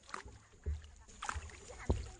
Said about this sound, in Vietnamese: Thuyền đi thêm một quãng nữa là tới núi Cửa Chùa.